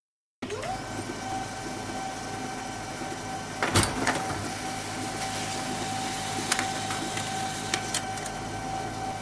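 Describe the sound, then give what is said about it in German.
A printer running while it prints a letter with an address for a window envelope: a continuous mechanical whir over a steady hum, with a sharp clunk partway through and a few lighter clicks later, no talk. “und wir können das Ganze mal ausdrucken.”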